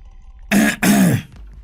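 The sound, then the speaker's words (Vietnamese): A boy's throat clearing, performed by a voice in a spoken story as a warning to a servant girl: two gruff, voiced bursts in quick succession, the second longer, fairly loud against near silence. “Tiếng đằng hắng của thằng Tí đã nhắc cho con Tèo biết đã lỡ lời.”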